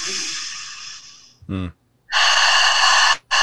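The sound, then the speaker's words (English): A slow, deep breath: a long airy inhale through the nose, a brief voiced sound, then a long exhale through the mouth, followed by the start of another breath. “when we take a nice, slow, deep inhale in through the nose and an exhale out through the mouth,”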